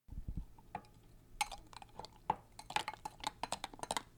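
Quiet clinking and light tapping as a drink mixture is stirred after a few pinches of powder are added, a quick irregular run of many small ticks against the cup.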